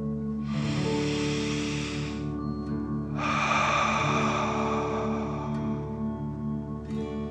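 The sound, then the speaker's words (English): Two long breath sounds from a deep breath in and out during a guided breathing exercise, the second longer than the first, set over a steady low droning music bed. “let's take one more deep dragon breath. Fill up your chest and belly, in and out.”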